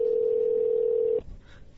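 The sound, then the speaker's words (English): A telephone dial tone as a call is placed to someone's mother at work: one steady, loud, low-pitched tone that holds for just over a second, then cuts off abruptly into faint noise. “We're going to call her right now.”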